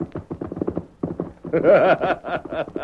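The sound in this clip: Hoofbeats of the horse Silver galloping off as a radio drama sound effect, a quick rhythmic clip-clop of many hoof strikes that grows louder and fuller partway through.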